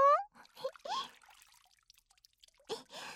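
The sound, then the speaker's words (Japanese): Water splashes and drips as it is poured over someone's back to rinse it in a bath: a few short, wet bursts separated by quieter trickling and dripping. “はい、お背中流しますよ。”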